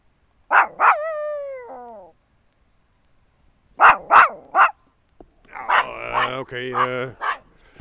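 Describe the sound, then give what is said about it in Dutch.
A very large dog barks in bursts: two sharp barks with a trailing tone, then three quick barks, then a longer run of rougher, rasping barks. “Deze hond is een beetje, hij loopt wel mee, maar is niet echt bereid tot serieuze communicatie.”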